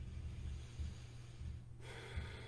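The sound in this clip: A deep breath is taken during guided meditative breathwork, a soft, airy rush of breathing heard alone over a low, steady hum.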